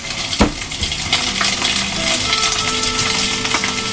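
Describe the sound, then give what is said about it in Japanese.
Bacon strips frying in a hot frying pan give a steady, crackling sizzle that runs through the whole clip, with one sharp knock near the start and no talk. “ベーコンを並べて塩コショウを最後に振って”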